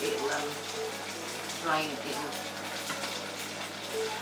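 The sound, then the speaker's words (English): Prawn water boiling in a pan gives a steady, dense hiss and bubbling rush that holds at an even level throughout, with a voice talking briefly over it at a few points. “This prawn water is making it look shiny. Why? What colour was it? You can see the water in there boiling inside.”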